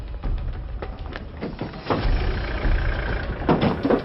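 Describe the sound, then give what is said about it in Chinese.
Cars drive away as a group of men in police uniforms leaves a demolition site: a steady low rumble of vehicle noise that swells and surges a few times. “穿着警察制服的那帮人开车离开了。”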